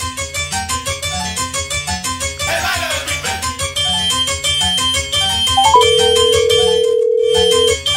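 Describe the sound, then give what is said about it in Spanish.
A telephone rings while a call is being dialed: a repeating electronic ringtone melody pulses steadily, then gives way to a single long, steady tone. “estamos marcando al compadre”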